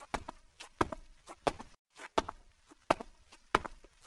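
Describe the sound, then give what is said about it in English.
Footsteps go down narrow stairs in a steady run of crisp, distinct thuds, some paired, with a brief pause near the middle before the steps carry on. “They carefully went down the narrow stairs.”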